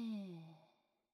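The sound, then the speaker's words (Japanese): A single slow, voiced breath out during a breathing exercise. It sounds like a soft sigh that drops in pitch and fades to silence over about a second, with nothing else heard. “息を大きく吸って、一瞬止めて、吐いて、”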